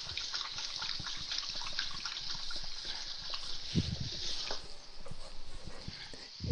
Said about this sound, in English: Wash my hands here real quick.